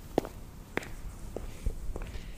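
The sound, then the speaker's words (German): Footsteps walk through the old town of Winterthur: a few soft, separate steps, fairly quiet, over a low background hum with no talking. “Wir laufen zehn Minuten durch die Winterthurer Altstadt, von der Polizeiwache zur KESP Winterthur Andelfingen.”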